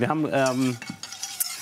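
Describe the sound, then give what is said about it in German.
Flour being stirred into foamed, lightly browned nut butter in a pan: a tonal, squeaky scrape opens, then gives way to softer scraping and small clinks of a utensil against the pan. “Ich habe hier schon mal ein bisschen Butter aufschäumen lassen und auch so ganz leicht rösten lassen. Da spricht man ja von Nussbutter. Und da rein habe ich jetzt das Mehl eingerührt.”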